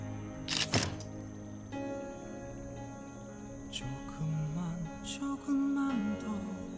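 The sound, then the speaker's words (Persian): A camera shutter clicks while taking a photo. One sharp click stands out early, and a couple of fainter clicks follow over a steady tonal background. “میتونی از همون عکس بگیری؟ این عکس در تاریخ خواهد موند.”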